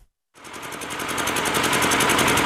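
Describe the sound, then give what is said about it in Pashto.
An old electricity generator runs in a bazaar in Yaqubi, Sabari district. After a moment of silence it starts up with a loud, steady drone of rapid, evenly spaced pulses that holds to the end, with no voices. “دا د صبری ولسوالۍ اړوند یعقوبیو بازار کې د برېښنا یو پخوانی جنراتور دی چې د لوړ غږ، تیلو لوړ مصرف او تریخ لوګي”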